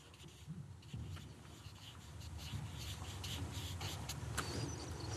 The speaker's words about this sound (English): now I'm drawing a circle, and within this circle is myself.